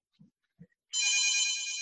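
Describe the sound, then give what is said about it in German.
A telephone rings with a steady, bright, sustained tone that starts about halfway through and carries to the end, after two soft low thumps. “das ist jetzt hier blöd, dass das Telefon klingelt.”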